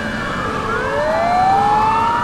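A Turkish police car siren wails loudly, its tone climbing steadily in pitch over a faint rumble of traffic, with no voices.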